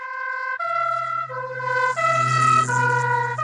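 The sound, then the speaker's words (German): A two-tone emergency vehicle siren driving past, its wail alternating between a high and a low pitch and growing louder toward the end. “lässt sich am besten anhand eines umgangssprachlich genannten Tatütatas demonstrieren, das an euch vorbeifährt.”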